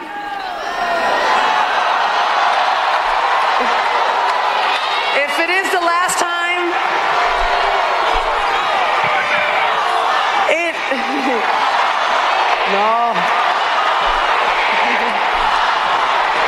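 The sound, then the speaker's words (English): Fans and teammates chanting "one more year" at a 42-year-old basketball star in Phoenix's arena after an 89-70 loss to Seattle, a dense, continuous wash of massed voices with occasional higher shouts rising above it. “That's fans and teammates chanting one more year at the 42-year-old.”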